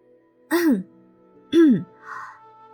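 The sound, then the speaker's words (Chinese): A voice clears its throat with two short, loud, gruff bursts, each rising and then falling in pitch, followed by a softer, brief hum. “于是他清了清嗓子”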